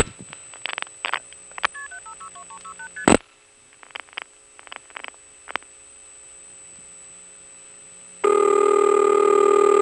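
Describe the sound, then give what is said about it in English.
Multi-frequency tones dial seven digits over a telephone trunk: short, crisp tone bursts come in quick runs with brief gaps between them. A loud, steady tone then takes over and holds through the final seconds. No one speaks. “so we get to hear 7 digits of MF as we call over to Hooker Road.”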